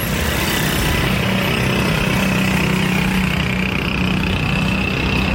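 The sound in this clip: Engine noise from auto rickshaws: a steady, loud, rattling motor drone that runs without a break, with a low, constant hum underneath.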